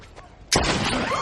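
A single gunshot goes off as a sudden, loud crack after a quiet moment, leaving a sustained, noisy wash ringing on behind it.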